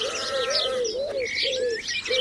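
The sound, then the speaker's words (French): Bird calls, said to come from a crow: a few wavering, mid-pitched calls repeat in a steady series, with higher chirps from other birds over them, all fairly faint. “Un corneil.”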